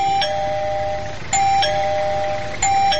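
A doorbell rings at a home, a few repeated presses giving bright, sustained electronic chimes that ring on and overlap one another, with no voices.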